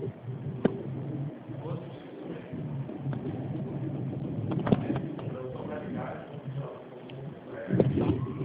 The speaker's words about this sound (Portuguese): Você está na rua dirigindo? Estou na rua, estou dirigindo. Ah, eu estou escutando barulho